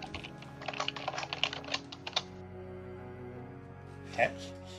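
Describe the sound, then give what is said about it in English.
Rapid clicking of fingers typing on a computer keyboard, a dense run of keystrokes over the first two seconds, then a pause and one louder single knock near the end. “That's some hot keyboard, baby. And he's got the best keyboard and he's taking the most ridiculous notes.”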